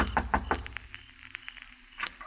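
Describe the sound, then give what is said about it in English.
Knocking on the door of a house in the hills outside town at night: a quick run of sharp raps at the start, then softer, scattered knocks and a final louder pair, with no voices. “I kept knocking.”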